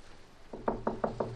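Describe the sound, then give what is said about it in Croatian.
Knocking on a hotel room door breaks the quiet: a quick, evenly spaced series of several dull knocks begins after a brief silence and is fairly faint overall. “Tišinu sobe prekida zvuk kucanja na vratima.”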